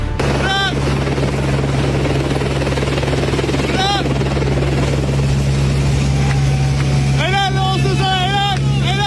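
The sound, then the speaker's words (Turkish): Loud, continuous rotor drone of firefighting helicopters and planes working over a forest fire in woodland near Kemer, Antalya. The steady roar runs throughout, with brief voices cutting through at moments. “Yangın söndürme helikopter ve uçaklarıyla çok sayıda ekip bölgeye sevk edildi.”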